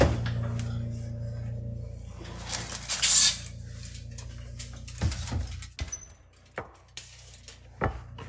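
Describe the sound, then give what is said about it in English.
A foil-covered baked pie is lifted out of the oven. A low hum gives way to scattered clunks, knocks and clinks of bakeware, with a few sharper bangs toward the end. “Okay, we have 35 minutes. Uh, the pie looks done. Let's get that bad boy out.”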